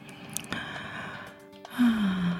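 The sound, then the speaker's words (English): A person takes a deep, slow grounding breath while practicing mindfulness, a soft airy draw of air ending in a faint low voiced exhale over a steady quiet background tone. “do you hear that? It's me taking a deep grounding breath and practicing mindfulness.”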